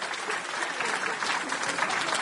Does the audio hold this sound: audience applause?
yes